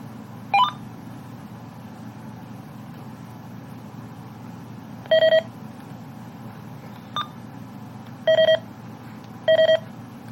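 A scanner beeping after being restarted: a few short electronic beeps at irregular intervals, some with a chirping quality, sounding over a steady low hum.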